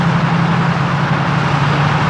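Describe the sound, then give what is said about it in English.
Idling engines of German Tiger tanks produce a steady, dense rumble with a constant low hum, unchanging throughout without any distinct start-up surge. “Cowboy and Gutowski watch nervously as the Germans start up their tanks. Two SS officers walk the perimeter of the green and inspect the idling Tigers.”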